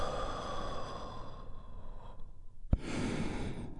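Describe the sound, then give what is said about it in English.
A deep, healing breath drawn in and released in a guided breathing exercise: two long, soft, breathy rushes split by a short pause and a single click. “deep, healing breath all together. Here we go. And release.”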